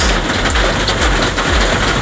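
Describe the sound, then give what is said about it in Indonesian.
Heavy drizzle falling at night in the Rodowo area, a loud, dense, continuous hiss of rain with no breaks from start to finish. “Tinggal gerimis aja, gerimis deras. Tinggal gerimis deras.”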